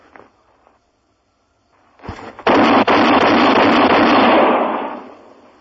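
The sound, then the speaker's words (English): A loaded gun is fired: a sharp report bursts into a loud, harsh blast that holds for about two seconds, with another crack inside it, then fades. “How many bullets did you have in there? Five. Is the other gun loaded? Do you mind doing that again?”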